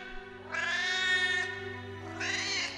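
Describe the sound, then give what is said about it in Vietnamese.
At night, a cat outside a house yowls twice, first in a long, drawn-out wavering cry and then in a shorter second yowl, faint and alone. “Tiếng con mèo vọng lại xa dần rồi mất hút, trả lại màn đêm đen đặc phủ kín căn nhà cô mới mua.”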